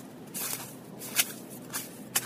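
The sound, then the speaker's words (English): Footsteps on a snowy, slushy running track, faint soft crunches and squelches, a few spaced steps with a couple of sharper impacts, heard alone. “This track is really snowy and slushy. I don't know if you can hear it.”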